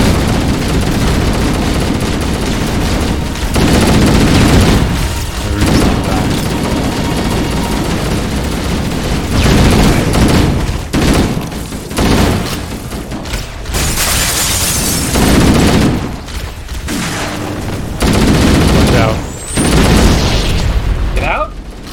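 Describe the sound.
Video game gunfire and booming explosions, including a thrown plasma grenade, pound almost without pause. The dense blasts are broken only by a few brief dips between bursts.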